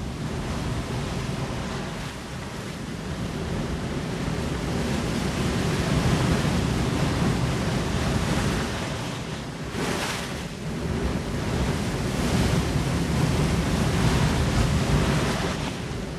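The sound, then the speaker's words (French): Sea waves and surf as a sound effect: a continuous, loud, broad roaring wash that swells and eases, with a brief lull partway through before the surge returns, no voices. “le studio 168 tangue évidemment sous les quelques vagues, quelques effluves marines qui nous viennent, quelques embruns qui viennent de François Connac et de ses trouvailles et de ses bruitages.”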